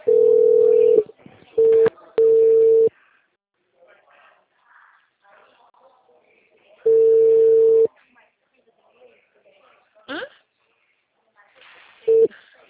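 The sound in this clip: Ringback tone of an outgoing phone call: a steady mid-pitched tone in a few on-and-off bursts, the longer ones about a second each, with long quiet gaps holding faint scattered noises.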